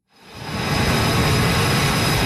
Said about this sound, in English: A fighter jet races down the deck of an aircraft carrier in the Strait of Hormuz. It lifts off, disappearing into the sky.